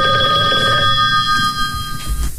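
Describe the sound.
A telephone rings with an incoming call. The electronic ring tone is steady and bright, holds at an even level and thins out toward the end, with no voices over it.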